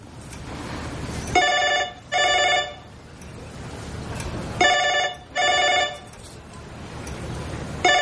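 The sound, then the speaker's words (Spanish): A telephone rings in repeated double bursts of bright electronic trills, two full pairs followed by the start of a third, loud against a low steady hum, with no voices. “Las dos se quedan calladas, esperando a que deje de sonar el teléfono.”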